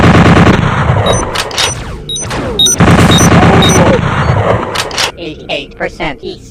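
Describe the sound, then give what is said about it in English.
Rapid gunfire from an automatic bolt gun in a video game. Loud, dense bursts of shots repeat over several seconds, mixed with short high electronic beeps. “Automatic bolt gun.”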